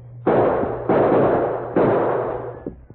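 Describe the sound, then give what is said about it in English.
Three loud gunshots ring out in a western radio drama shootout along a creek bank. Each is a sharp, evenly spaced blast with a long decaying tail, and no voices are heard. “Oh, Silver, my last round of bullets.”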